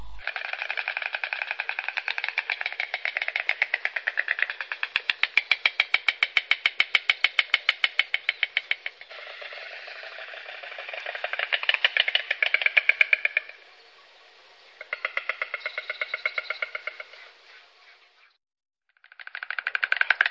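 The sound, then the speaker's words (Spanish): A white stork clatters its bill, upper and lower mandibles striking rapidly in dry, wooden rattling bursts that swell and fade, separated by a few short pauses. “La cigüeña entrechoca el pico uno con otro, la parte de arriba con la de abajo, y producen un sonido que se llama crotoreo. Vamos a escuchar un sonido de las dos cigüeñas que tenemos aquí en el país. Cigüeña común.”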